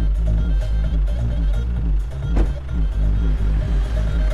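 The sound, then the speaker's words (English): Low, steady engine rumble of an SUV driving along a street, a continuous drone with no clear rise or fade. “It drives past the young woman in the yellow t-shirt.”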